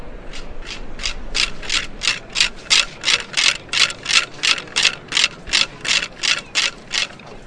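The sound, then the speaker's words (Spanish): Wooden ratchet rattle (carraca) sounded during a Holy Week procession to announce a funeral cortege: many rapid, dry clacking bursts in a steady, even rhythm, loud and alone throughout. “Ese es el sonido que antecede al paso de la Hermandad del Santo Sepulcro, la carraca, que anuncia la llegada de una comitiva fúnebre”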